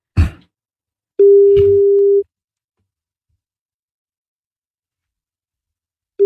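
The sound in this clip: Telephone ringback tone while calling someone: a short noise burst, then a steady single-pitch tone of about a second, a long silence, and the tone starting again at the end.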